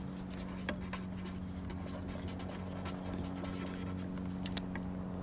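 A pen scratches on paper in near quiet, a soft, continuous writing sound made of small, irregular strokes with no talking.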